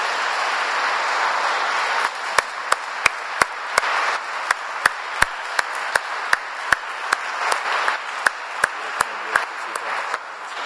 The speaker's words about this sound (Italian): credo che un applauso sia segno della nostra riconoscenza.